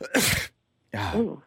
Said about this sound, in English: she's sneezing and coughing a lot. It's just allergies.